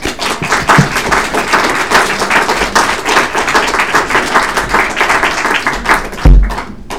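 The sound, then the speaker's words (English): A church audience applauds to welcome a speaker, giving sustained, loud clapping from many hands, with a continuous rhythmic patter that barely dips before a final strong burst. “So let's give a welcoming hand to Dan Hare.”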